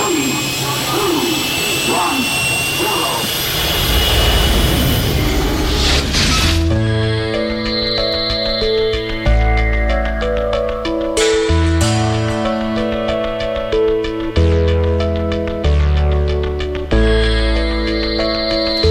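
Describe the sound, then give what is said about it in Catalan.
Spaceship taking off, a sound effect: a dense, continuous jet-like roar lasts about six seconds, then gives way to sustained electronic musical tones. “Som a punt d'enlairar-nos amb la nau La Fall Lluna.”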